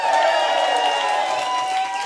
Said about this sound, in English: How is everybody? We got a packed crowd.